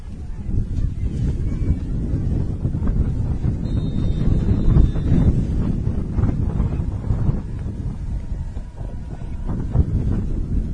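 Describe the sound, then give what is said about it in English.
Wind gusting at an outdoor high school football playoff game at Penny Packer Field, a loud, continuous low rumble and buffeting that never lets up. “As the wind begins to pick up here at Penny Packer Field.”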